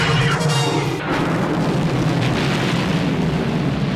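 In a Star Wars film sound effect, the Death Star destroys the planet Alderaan with a loud, sustained, deep rumbling explosion that roars steadily throughout.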